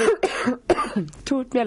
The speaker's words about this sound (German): Was kann ich dir noch Gutes tun, dass dein Husten aufhört? Ach je, das ist vielleicht nur ein Aufregungshusten.